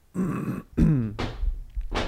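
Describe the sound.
Dog hacking and coughing as if a stick were stuck in its throat, a few harsh, raspy bursts with a rough, throaty groan between them.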